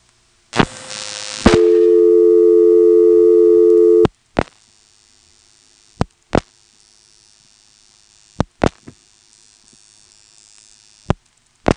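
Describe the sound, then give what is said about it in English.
Telephone call dialed over an interoffice trunk carried on a T-Carrier digital transmission system, to a number in the 221 exchange: a short noisy burst, then a steady tone of about two and a half seconds, followed by near-silence broken by a few sharp clicks. “This next call goes over yet another kind of interoffice trunk, and we'll be dialing a number in the 221 office, which is in a town called Welsh.”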